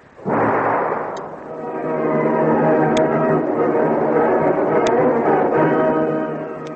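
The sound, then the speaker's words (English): A bomb thrown and exploding in a radio drama. A sudden loud blast swells into a sustained roaring rumble for several seconds, with tonal layers blended in, then eases slightly at the end. “Look out, Commander. He's throwing a bomb!”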